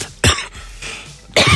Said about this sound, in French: Pardon. Je m'étouffe.